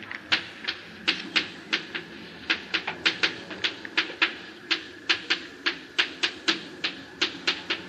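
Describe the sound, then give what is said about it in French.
Writing out the first verse of a prayer text produces a long, steady run of crisp, quiet tapping clicks, evenly paced and many in number, with no talk over them. “si j'écris ici le premier verset du Kriyat Shema,”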